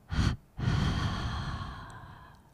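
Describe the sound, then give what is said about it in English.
Slow, deep breathing during a guided relaxation exercise: a short, audible inhale, a brief pause, then a long, breathy exhale that gradually fades, with no talk. “and again inhale, holding and exhale.”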